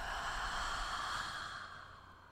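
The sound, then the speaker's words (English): A deep breath taken during a guided breathing exercise: a steady, airy rush of breath that slowly fades toward the end, with no talking. “Deep breath in and out.”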